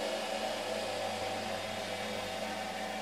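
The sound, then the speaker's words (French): Steady whirring drone of a textile machine that moves up and down to spread yarn along the height of a bobbin, a constant hum with a broad airy hiss and no clear breaks. “Ouais, on a une partie sur la machine qui monte et qui descend pour répartir le fil sur la hauteur de la bobine.”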